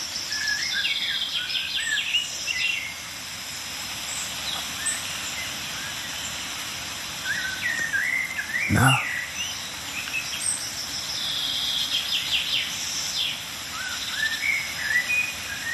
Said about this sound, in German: Amsel, Buchfink, Meisenrufer.